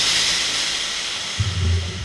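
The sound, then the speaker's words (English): Steam hisses steadily from a shower head in a bathroom, a broad airy rush throughout, joined near the end by a low, rumbling sputter that lasts about half a second. “steam filled the bathroom. The shower head sputtered,”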